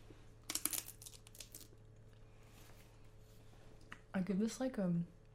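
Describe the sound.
Crinkling, crunchy bites of an edible paper snack being eaten: a few sharp crackly bursts early on, then quieter rustling, with a person talking briefly near the end.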